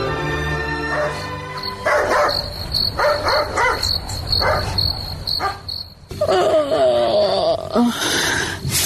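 A dog barks repeatedly in short bursts over a constant high chirring of crickets, with a louder stretch of yelping, wavering cries near the end.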